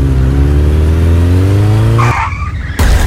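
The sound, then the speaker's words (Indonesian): A motorbike engine revs with a steady droning hum, then cuts off abruptly as the bike crashes, followed by a brief screeching squeal and a loud burst of noise. “kok kamu bawa motornya gak bener sih? Jatuh kan?”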